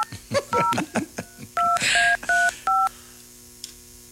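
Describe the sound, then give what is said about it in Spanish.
Touch-tone telephone dialing for a call-in prize contest: a few short voice fragments, then a series of distinct dial beeps of varying pitch, separated by brief gaps, before the line falls quiet. “Estamos marcando otro número.”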